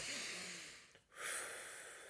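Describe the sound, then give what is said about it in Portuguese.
A deep breath taken slowly: two long, airy breath sounds separated by a brief pause, soft and unaccompanied by speech. “Vamos respirar fundo.”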